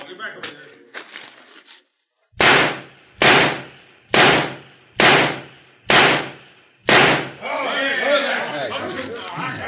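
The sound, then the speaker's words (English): Six loud, sharp gunshots are fired at a target in a shooting contest, evenly spaced about a second apart. Voices are heard before the shots and a crowd murmur follows them. “Every one of them shots is in the black. None of them dead center, but it's a perfect score.”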